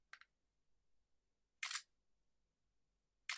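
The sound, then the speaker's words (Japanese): Camera shutter firing to take a photo: a faint quick double click, then, after silence, a sharp loud shutter snap and another that begins at the very end. “これで写真を撮ります。”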